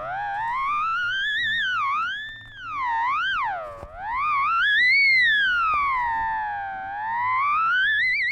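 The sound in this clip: A theremin, an electronic instrument played by moving the hands in the air, sings a single whistling tone that glides smoothly up and down in wide, wavering swoops. It plays alone at a fairly steady level, dipping briefly in the middle.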